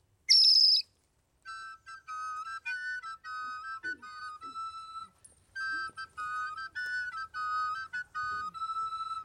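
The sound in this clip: A nightingale sings a run of high, clear whistled notes and quick trills in short repeated phrases with brief gaps. The song is fairly faint and alone, after a sharp high burst at the very start.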